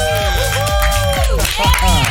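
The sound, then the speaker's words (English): A studio audience cheers and whoops to welcome a guest. Overlapping high voices rise and fall in continuous, energetic noise. “Okay, everybody in the studio, make some noise.”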